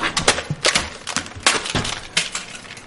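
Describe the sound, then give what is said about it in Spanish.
A mobile phone is smashed against a kitchen counter again and again: many hard, cracking impacts with glassy, clinking debris, fast and irregular, loud and with no talk. “Destroza el móvil contra la encimera de una cocina.”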